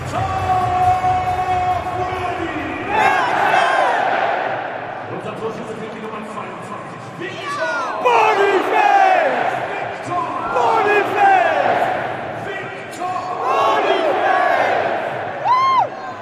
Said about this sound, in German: Das erste goldene Tor. Und auf den Rängen ist Party.